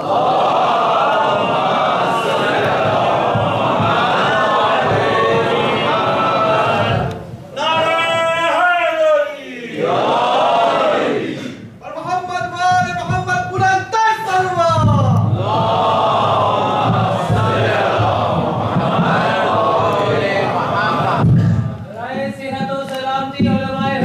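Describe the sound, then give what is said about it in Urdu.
An audience recites salawat together at a religious gathering, many voices joined in a loud, sustained chant that swells and carries on almost without a break. “مل کر آپ صلوات پڑھیں”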